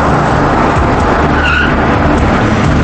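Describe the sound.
Tyres screech as a car peels out from a toll booth. A loud, continuous engine roar carries a skidding squeal that rises briefly in the middle and holds a dense, harsh texture throughout.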